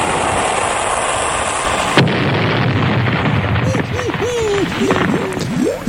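A weapon-firing explosion sound effect: a loud, roaring two-second blast cuts off abruptly into a lower rumble, with wavering whistling tones over the end.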